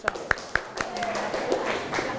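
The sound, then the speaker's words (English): Sharp hand claps in a classroom as the class welcomes student volunteers. A few crisp, separate claps come in quick succession, then give way to faint voices and room murmur. “Could you please clap your hand for the first pair?”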